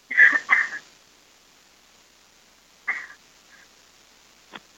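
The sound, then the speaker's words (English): Coughing from a person pausing mid-conversation: two quick, sharp coughs, a pause, then a third short cough and a faint throat sound, with no talk. “let me cough real quick”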